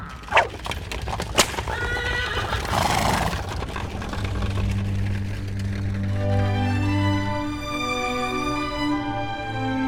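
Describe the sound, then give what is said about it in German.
Horses drawing a carriage: hooves clip-clop with a few sharp strikes early on, then a loud, drawn-out whinny rises over the steady rolling clatter. “Man sollte immer an den Kutscher und die Pferde denken.”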